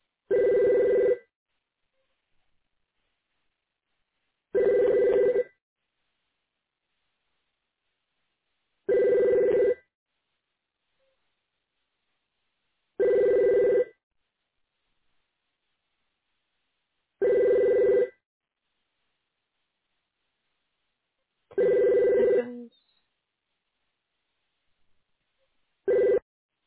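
A telephone rings while a survey caller waits for someone to answer. Seven evenly spaced bursts of bell-like ringing come about every four seconds, each lasting roughly a second, with silence between them and no voices.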